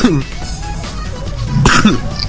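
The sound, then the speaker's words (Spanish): A couple of harsh, loud coughs, one at the start and another near the end, with throaty clearing sounds between them. “Y ya me está dando tos.”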